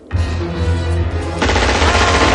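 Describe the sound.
Bursts of automatic gunfire in a 1988 action film, during a chase between tables: loud, dense and continuous shooting with a heavy low rumble underneath, turning harsher and brighter in the second half.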